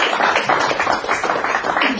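A church audience applauding in praise of the Lord: dense, sustained clapping from many hands, steady in loudness from start to finish.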